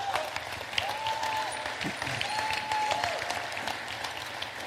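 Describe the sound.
A church audience applauds after being asked to cheer for a worship team member. The clapping is steady and moderately loud, runs throughout, and stays evenly textured.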